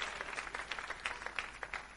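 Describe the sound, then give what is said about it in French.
A church audience claps in a dense, steady patter of many overlapping claps. The applause is faint and even throughout, with no clear voices. “On acclame Jésus, on acclame Jésus. Alléluia. Alléluia.”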